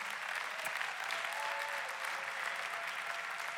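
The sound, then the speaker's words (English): Dense, continuous applause from an audience in the building for people joining online, with many hands clapping at an even level throughout and no clear voice above it. “And to everybody in the building, come on, can we put our hands together for everyone joining online right now?”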